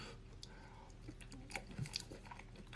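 Faint chewing of a brownie with a crispy top, eaten with melting ice cream: soft, irregular crunches and wet mouth sounds at low volume.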